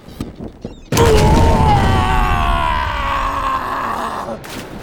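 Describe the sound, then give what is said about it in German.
A ship explodes in a sudden loud blast, followed by a long, deep roaring rumble that slowly fades over several seconds. “Am Strand beobachten die Römer, wie das Schiff explodiert, auf dem sie gerade noch gewesen sind.”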